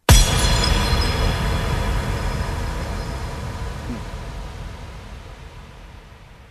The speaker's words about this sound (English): Flash shatter impact.